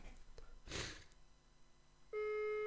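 A phone ringback tone begins as a call goes through: a soft breathy rush comes first, then a steady electronic tone starts abruptly and holds to the end over faint background noise.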